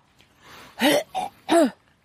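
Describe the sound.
A person coughs after a small piece of hard candy flies into the throat while breathing in: three loud, harsh, throat-clearing coughs in quick succession, the middle one shortest, with no talk.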